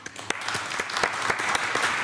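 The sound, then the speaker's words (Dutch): Warm applause from an audience, with many hands clapping steadily and individual sharp claps standing out from the blend, at a moderate, even level throughout. “Geef ze een hartelijk applaus.”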